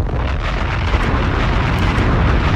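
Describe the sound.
Bomb explosions from the video game Call of Duty Vanguard make a loud, sustained, dense roar that holds steady throughout, without clearly separated blasts or voices.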